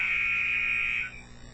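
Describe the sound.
A basketball game buzzer sounds in one loud, steady, high-pitched blast lasting about a second, then cuts off, leaving faint low background noise.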